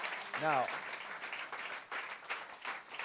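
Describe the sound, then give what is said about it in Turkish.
An audience applauds during a church service, a fairly soft, continuous patter of clapping with a voice heard over it near the start. “Come on, let's give them one more hand.”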